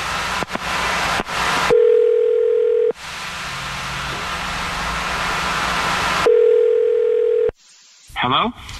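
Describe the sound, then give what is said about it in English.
Telephone tones over a hissy line as a call is placed: two long, steady, mid-pitched tones with bursts of static between them, then a short muffled burst at the end. “Okay, I'm going to dial his number right now. Here we go.”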